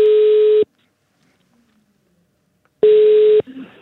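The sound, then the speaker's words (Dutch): Ringback tone on a telephone line while placing a call: two steady, loud, mid-pitched rings, each under a second long, separated by a long silent pause. “Ik ga hem eens proberen te bellen.”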